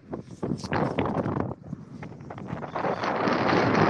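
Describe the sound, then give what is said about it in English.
Wind blowing outdoors and buffeting the microphone with a dense, rushing roar that dips briefly in the middle and then builds to a steadier, stronger blast toward the end. No talking. “damn, it's windy.”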